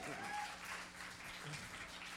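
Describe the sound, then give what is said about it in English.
Faint audience clapping runs as a soft, steady patter throughout, evenly spread without distinct individual claps and without clear rises or breaks. “y'all can go ahead and clap”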